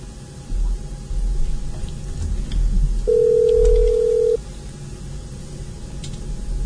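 Telephone tone heard after the other party hangs up, a steady mid-pitched beep lasting just over a second over a low, noisy background hiss.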